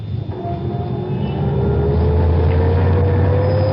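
A Rolls-Royce drives off with a steady, loud engine hum that climbs slowly in pitch as it gathers speed.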